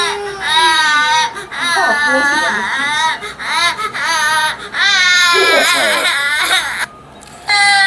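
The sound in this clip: A young child crying and fussing in loud, wavering wails, broken by short gasping pauses, with the crying going on throughout.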